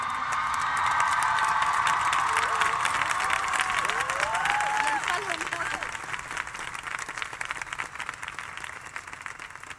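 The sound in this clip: Audience applause at a live event: dense, continuous clapping with some cheering and voices mixed in, holding steady and then easing slightly toward the end.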